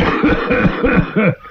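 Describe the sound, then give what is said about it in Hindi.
Four loud coughs in quick succession, each a short rasping voiced burst with a rough throaty tone, one person coughing heavily with brief gaps between them. “आपको तो खांसी भी बहुत आ रही है।”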